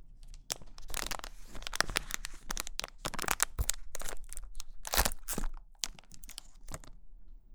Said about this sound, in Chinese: 来，我这有块巧克力，你把它吃了，给你补充一点糖分吧。